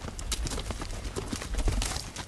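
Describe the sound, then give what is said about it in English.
Horses ridden by field hands on a sugarcane farm clip-clop with many irregular hoof beats. Their strikes overlap at a moderate level, and no talk is heard. “Field hands ride horses.”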